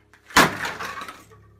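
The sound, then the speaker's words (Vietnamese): A box dropped on the ground with its outer clasp springing open: one sharp, loud impact followed by a brief rattling decay that fades within a second, with nothing else heard. “bà Hoài làm rơi chiếc hộp xuống đất. Cái then cài bên ngoài hộp bung ra.”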